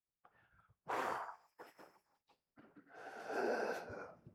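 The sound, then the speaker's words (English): Strained, effortful breathing as a person pulls their arms back, exhales as fully as possible and then tries to inhale. Several uneven, raspy breaths come through: a loud gust, a few brief catches, then a long, labored, wheezy pull of air. “Pull your arms back. Exhale as much air as you can, and then try to inhale.”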